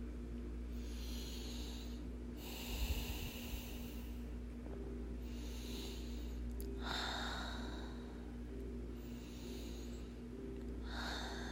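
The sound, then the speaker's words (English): Slow, quiet breathing, with a few long, airy breaths spaced several seconds apart over a steady low hum. “Feel how my chest rises and falls as I breathe?”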